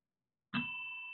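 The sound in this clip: A doorbell rings with a single bright chime that strikes suddenly and then holds as a steady, sustained tone to the end.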